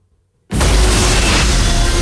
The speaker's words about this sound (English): The machine explodes. An energy wave surges through the cave complex, vaporizing all the Morlocks in its path.